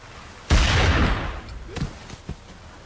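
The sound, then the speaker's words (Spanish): A single loud gunshot as a trigger is pulled, a sharp blast about half a second in that rolls off over the next half second, followed by a few faint, softer knocks. “Si don Víctor vuelve a disparar, me mata. Y entonces, suavemente oprimió el gatillo.”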